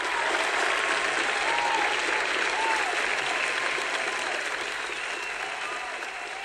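An audience applauding to welcome a guest, with dense, steady clapping that fills the whole stretch and eases off slightly toward the end.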